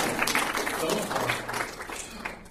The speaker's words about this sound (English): Now you have to applaud for